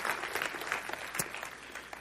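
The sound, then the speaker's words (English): An audience claps hands in praise during a Christmas-season church sermon, a dense, steady burst of applause that stays loud throughout with no talk. “go ahead, give the Lord a hand clap of praise. Can you do that?”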